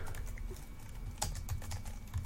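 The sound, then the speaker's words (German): Quiet typing on a computer keyboard, with irregular clusters of light key clicks tapping along unevenly and no talk over them. “ihr hört die Tastatur tippen im Hintergrund”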